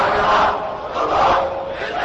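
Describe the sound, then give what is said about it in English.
Crowd chanting in unison at a rally in front of a Shiite mosque in Iraq, a loud, dense mass of voices that swells twice and eases between, with no single speaker standing out. “As the crowd chanted, "Our souls, our blood to you, Iraq," the Prime Minister responded”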